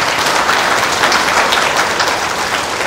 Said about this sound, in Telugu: ఈ పెట్టలు పోవాలంటే ఈ చప్పట్లు కొట్టాలి.